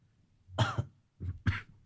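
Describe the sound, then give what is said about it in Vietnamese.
A person coughing, a few rough, fairly quiet coughs that come in two short bursts separated by a brief pause. “Ho quá cơ. Ho quá.”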